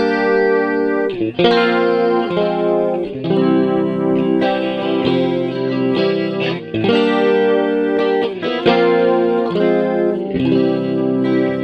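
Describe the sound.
An electric guitar with chorus and distortion effects plays G minor chords. They are strummed in a steady, repeating rhythm, loud and alone, with no voices.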